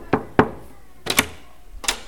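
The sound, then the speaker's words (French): Knocking on a door: five sharp raps in an uneven pattern, two quick knocks, a pause, two more close together, then a single final knock. “Quelques jours plus tard, Monsieur le Goujat frappa à ma porte.”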